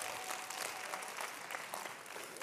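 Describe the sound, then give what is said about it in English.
An audience claps its hands in praise to God, a dense, even patter of applause that stays faint and steady from start to finish. “If y'all are getting this, clap your hands and give God praise.”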